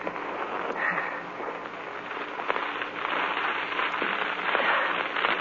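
A fire being lit and catching, as a radio drama sound effect: a dense, steady crackle and hiss that runs unbroken for the whole stretch at a fairly even loudness, with no voices over it.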